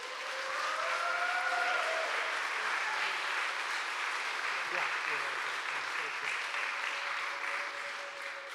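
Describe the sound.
Steady applause from a church audience welcoming a speaker, a continuous even wash of clapping that holds at a constant level from start to finish.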